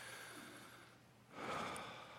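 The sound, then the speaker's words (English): A slow, deep breath drawn during a sermon, a soft airy rush that swells midway and holds steady to the end, with no talk. “Now, everybody just take a deep breath with me.”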